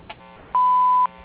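Answering machine beep: a single steady electronic tone lasting about half a second, clear and fairly loud over a faint background hum.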